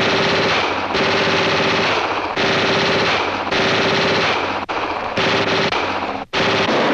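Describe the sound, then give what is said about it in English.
Rapid automatic gunfire sprayed at a ceiling, a radio drama sound effect: loud, dense bursts of shots running almost continuously, broken by two brief gaps near the end. “Smart girl. She's firing at the ceiling.”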